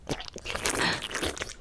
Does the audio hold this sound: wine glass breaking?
no